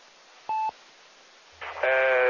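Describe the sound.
Telephone dialing tones on a phone line used over an amateur radio link: a single short beep, a pause, a brief burst of noise, then a sustained multi-tone sound over a low hum that runs to the end.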